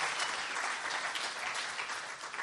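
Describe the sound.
A church audience breaks into applause, a dense, steady wash of many hands clapping throughout.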